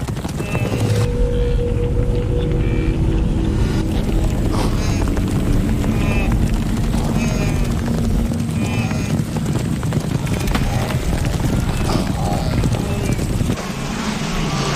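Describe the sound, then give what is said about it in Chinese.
A wildebeest herd charges toward a river, its hooves making a dense, continuous rumbling drum of hoofbeats that stays loud and steady throughout, with wind buffeting underneath. “强驱使下，角马群冲向河流。”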